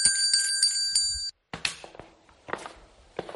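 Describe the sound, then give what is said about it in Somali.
A large iron bell with a small neck rings with several rapid, bright strikes for just over a second, then falls silent before a few dull thuds and footstep-like knocks. “Alla beert, gambaleel baan helay.”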